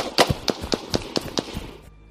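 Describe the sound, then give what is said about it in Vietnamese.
Several sharp gunshots ring out near a cave entrance in a quick, evenly spaced volley of short, bright cracks, each decaying fast, with the last faint tail dying away into quiet. “Sau đó, vài tiếng súng chát chúa vang lên.”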